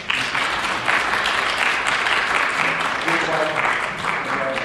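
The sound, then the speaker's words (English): Audience applause for a student who graduated top of her class, a dense, steady clatter of clapping that holds at an even level for the whole five seconds without a break. “So, congratulations. Very well done. I think she deserves a hand.”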